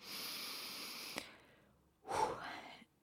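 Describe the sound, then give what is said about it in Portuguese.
A deep breath taken during a brief moment of silence: a long, steady, breathy inhale, a short quiet pause, then a louder, rougher exhale, with no talking. “Vamos respirar fundo.”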